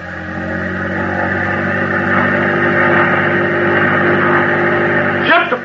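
Loud, steady engine drone of a boat at full throttle during an attack on troop ships, a dense, harmonic roar that holds constant throughout, with a brief disturbance at the very end.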